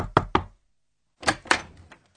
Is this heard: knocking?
yes